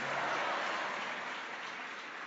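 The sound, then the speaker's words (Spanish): An audience applauds during a Spanish-language worship sermon, clapping in praise of God as King. The dense, hissing wash of many hands holds at an even level throughout, fading only slightly toward the end. “Dale aplausos al Rey que vive y permanece para siempre.”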